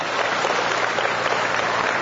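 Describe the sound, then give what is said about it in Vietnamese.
Applause from an audience at a religious gathering: dense, steady clapping that stays at an even, fairly loud level from start to finish. “Rồi, ôi trời ơi, vỗ tay. Một tràng vỗ tay chúc mừng những người có.”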